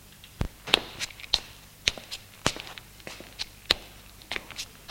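Footsteps of a woman walking, heard as many quiet, crisp taps at a fairly even pace with a faint background hiss.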